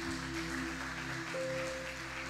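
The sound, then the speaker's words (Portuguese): Congregation applause during a church service, offered in praise. Faint, steady clapping sits under sustained keyboard tones, and one held note shifts higher partway through. “e nós fazemos isso com uma salva de palmas ao teu nome, Jesus.”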